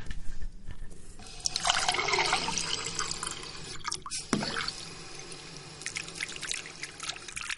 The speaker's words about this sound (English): This is the sound of the water coming out from the tap.